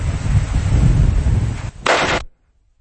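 Full-auto gunfire from a malfunctioning gun that keeps jamming: a rough, continuous burst, a brief pause, then a short second burst that cuts off abruptly into silence.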